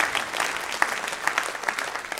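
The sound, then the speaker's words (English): Audience applause: a steady, dense patter of many hands clapping at once, fairly loud and even throughout, with a few sharper individual claps standing out. “Give Kurt a round of applause.”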